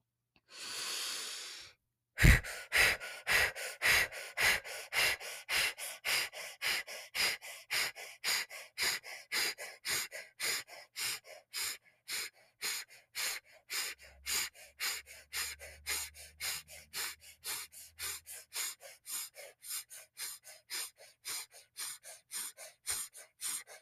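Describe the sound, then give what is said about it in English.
Rapid breaths in and out through the mouth, a breathwork pattern called blow breath. A sharp gasp opens it, then many quick, even, loud breath pulses in a steady rhythm, with no talking. “So blow breath, here we go, in and out through your mouth, and it sounds like this.”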